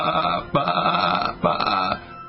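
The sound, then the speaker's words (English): A human voice imitates a sheep's bleat in a few nasal, wavering calls, each held for under a second, with no other voices. “you have to practice your sheep sound, go, I got my lemming mask on, I'm going to go,”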